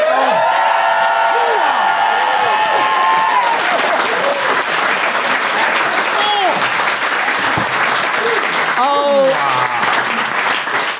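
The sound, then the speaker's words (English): An audience applauds during a debate-style vote, producing dense, continuous clapping that stays loud throughout, with cheers, whoops and scattered voices rising above it. “please applaud now.”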